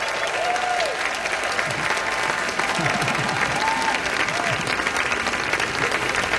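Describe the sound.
Audience applause fills a concert hall at an evening concert, a dense, steady roar of clapping that stays even throughout, with a voice briefly rising above it now and then.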